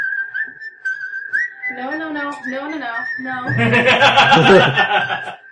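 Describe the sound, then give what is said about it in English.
A whistled melody plays as tavern music in a video game, a clear sustained tune with sliding notes. Louder laughter and voices join over the second half. “There's fancy music in the tavern tonight. That whistle's from two movies. It's Kill Bill and then a scary one.”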